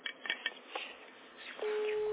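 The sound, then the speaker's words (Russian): A telephone ringback tone sounds on an outgoing call after a few faint clicks and rustles, then holds as a steady, continuous tone at one pitch. “Это у тебя гудок идет? Да, это я Лене звоню, у меня вывалилось.”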